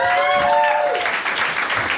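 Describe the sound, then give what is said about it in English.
An audience at a stand-up comedy show breaks into dense, sustained clapping, and a voice is heard briefly over the applause at the start. “Big round of applause for John Holmes.”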